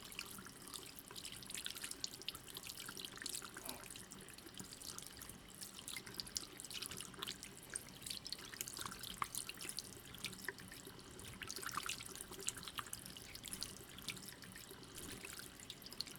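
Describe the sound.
Tap water running as soapy hands are rinsed, a soft, continuous hiss and trickle with faint scattered drips throughout, steady and quiet.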